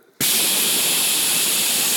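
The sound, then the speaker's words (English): A voice imitates radio static, the sound of a car radio losing signal under trees: a loud, steady hiss cuts in abruptly after a brief quiet moment and continues unbroken. “They're going to give this miraculous cure, and all I'm hearing is static.”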